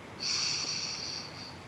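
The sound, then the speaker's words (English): A deep breath drawn in, a soft airy hiss that swells quickly and holds steady for over a second, faint and alone. “I invite us all to join together as one conscious global heart as we take a deep breath in”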